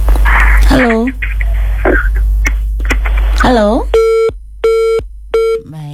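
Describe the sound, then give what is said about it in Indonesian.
A telephone busy tone sounds after a caller's line drops during a phone-in. Talk comes first, then three even, mid-pitched beeps separated by short silences. “terputus ya dari Pak Latif tadi.”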